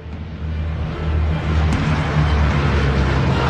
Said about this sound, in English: Another plane takes off.